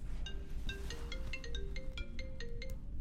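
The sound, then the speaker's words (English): A mobile phone ringtone plays a melodic run of bright electronic notes that step up and down in pitch, continuous and fairly loud, without talk over it. “Oh my goodness, I forgot to turn my phone down.”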